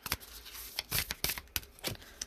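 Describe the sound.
Playing cards being shuffled and flipped out during a card reading: a quick, uneven run of many crisp papery snaps and rustles, each short and bright, with no talking.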